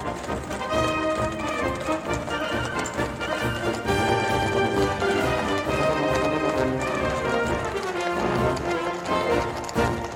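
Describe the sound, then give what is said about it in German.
A cavalry squadron gallops, its horses' hooves beating in a rapid, steady patter under loud, dense music that runs throughout. “Schwadron Kavallerie tauchte am Horizont auf und preschte im Galopp auf uns zu.”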